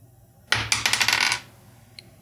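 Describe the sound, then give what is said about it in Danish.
Dice rolled for a prize draw give a short, bright clatter of rapid clicks lasting about a second, followed by a single faint click after a pause. “Og den bliver udtrukket på den meget effektive måde. Terningrul. Så jeg ruller lige her.”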